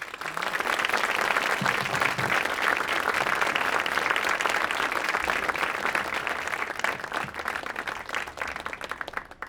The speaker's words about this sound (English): So I want you all to kind of put your hands together, give a warm New York welcome to Hiroshi Fujiwara.